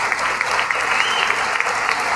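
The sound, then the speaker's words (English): Applause from an audience asked to stand in support of Ukraine during a speech, dense steady clapping with a few sharper, louder claps standing out from the mass. “So applause is going to influence the world.”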